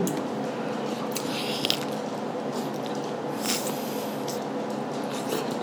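Biting and chewing a spicy churro, with soft, moist crunches and a few sharper bites over steady chewing noise. No speech is heard.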